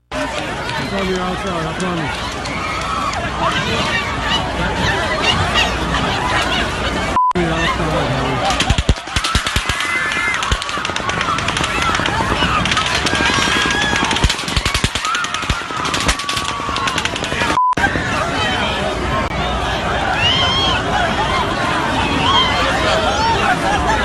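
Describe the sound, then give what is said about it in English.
Sustained automatic gunfire during a mass shooting, dense and nearly continuous for the whole stretch, over loud crowd commotion with people running and voices shouting. “because this guy kept reloading. It was at least 10 minutes of shooting. At least 10 minutes of shooting.”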